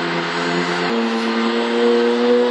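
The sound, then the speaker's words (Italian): Buzzing mechanical drone from a 1909 futurist noise machine, a mechanical synthesizer worked by ropes and cords, imitating a racing car. It holds a steady, loud harmonic buzz whose pitch shifts abruptly once early on, then stays level. “lui riproduceva con questa macchina le automobili da corsa”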